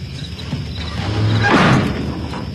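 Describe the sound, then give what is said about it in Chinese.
A door being shut in a household, heard as a soft sliding whoosh that swells into a low, muffled thump midway, over steady background hiss. “出去把门关上。”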